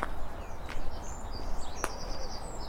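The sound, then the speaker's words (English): A wood pigeon croons softly at dawn beside a Brecon Beacons canal in spring. Brief high chirps and tweets from other birds cut in over a faint, steady outdoor background. “There's a lovely wood pigeon crooning.”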